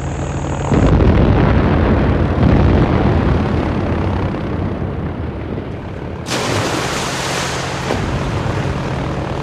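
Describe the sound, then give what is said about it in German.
Bombs explode below an airship over a steady aircraft engine roar. Dense, loud rumbling fills the whole stretch, and a brighter, hissing surge of blast noise rises near the end. “Unter uns knallte es weiter, die Bomben”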